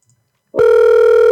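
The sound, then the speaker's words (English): A telephone ringback tone plays on an outgoing call, starting abruptly after a short near-silence and holding as a steady, loud, mid-pitched hum to the end. “All right, I'm going to start ringing.”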